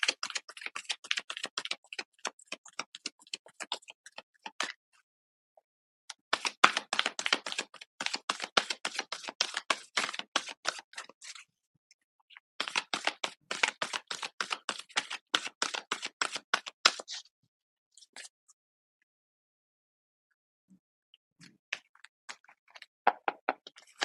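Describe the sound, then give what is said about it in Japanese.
Tarot cards are shuffled in several long bursts of rapid, crisp papery clicks and flicks. The bursts are quiet and separated by short pauses. “今からカードをシャッフルします。少々お待ちください。”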